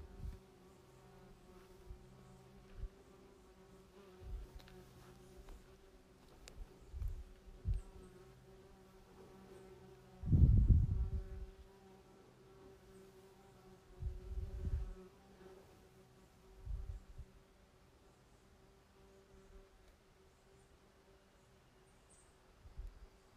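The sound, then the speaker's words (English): Faint insect buzzing in a quiet natural setting, rising and fading in several brief passes over a soft, steady background, with one louder, closer-sounding buzz near the middle. “So what I hear in nature are birds, maybe some buzzing insects, and silence.”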